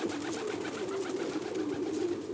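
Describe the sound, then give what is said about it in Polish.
A rock pigeon, or feral city pigeon, gives soft, low, rolling coos that run continuously and stay faint throughout. “Gołąb. Znów, gdy mówimy o tym gatunku, zapewne mamy na myśli gołębia miejskiego, inaczej skalnego.”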